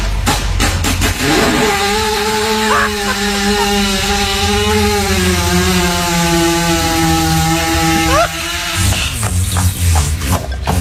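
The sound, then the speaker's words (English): A horse lying on its side passes gas in one long, loud, buzzing rumble that holds a steady low tone for several seconds before breaking into rough, sputtering noise at the end. “So when they have digestive discomfort, what happens? They lie on their sides and just let one go. Here's a little sound bite.”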